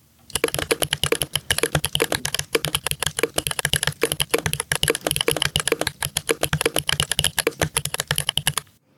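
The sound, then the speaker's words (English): Rapid typing on a mechanical keyboard fitted with Oreo switches: many crisp, clattering keystrokes in a fast, steady, fairly loud stream, with no talking. “There's a lot happening with each keystroke. You can move to hear the switches moving around. This is the Oreo switches.”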